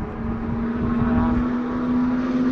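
A Mercury Cougar racing car's engine gives a loud, steady drone with a constant low hum that holds an even level throughout.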